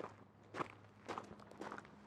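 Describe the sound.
Faint footsteps of people arriving at a club, a few soft, separate steps spaced roughly half a second apart over a quiet background.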